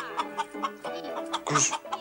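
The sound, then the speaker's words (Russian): Chickens walking about and clucking inside a peasant hut: several short clucks in a loose rhythm, with one louder, higher squawk toward the end. “По избе ходят куры.”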